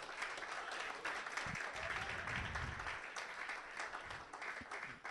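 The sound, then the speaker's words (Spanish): Applause rises from a church audience at a worship service, a dense continuous patter of many hands clapping at a steady level, with faint voices mixed in underneath. “Quiero que le deje el aplauso más grande al Señor.”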